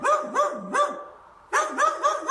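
A dog barks in a quick run of short, yelping barks, each bark rising and falling in pitch. A brief pause follows, then another fast series of similar barks, loud and alone.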